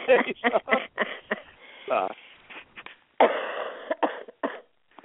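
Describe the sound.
Short, harsh coughs from someone with a cold, heard over a phone line, come in a quick series of bursts with brief gaps between them.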